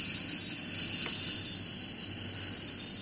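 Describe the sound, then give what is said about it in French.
Outdoor nature ambience in New Guinea, dominated by a steady, high-pitched insect trill like crickets, holding at an even, moderate level throughout with no voices. “Ça, c'est en Nouvelle-Guinée. On a l'ambiance sonore de la Nouvelle-Guinée.”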